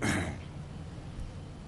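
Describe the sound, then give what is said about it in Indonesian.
A stifled sneeze that never comes, during an Islamic study lecture: one short breathy snort at the very start, then only faint background hiss. “mau bersin gak jadi”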